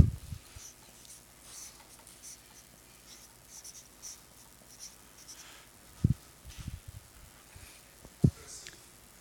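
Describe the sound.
Handwriting scratches faintly as a pen moves over paper in soft, uneven strokes, with a few light taps and knocks rising briefly above the quiet scratching.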